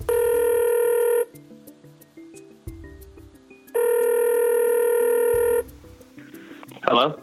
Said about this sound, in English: Let's give him a shout. Dial him up.